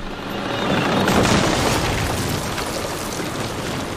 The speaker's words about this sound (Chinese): 我们损失了一辆坦克，它压到了地雷。